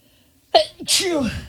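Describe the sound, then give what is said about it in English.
A person sneezing: a short voiced intake runs into a loud, hissing burst, which trails off with a falling vocal tone. “Are you allergic to that? I'm so sorry. That's a weird time to sneeze. Two sneezes.”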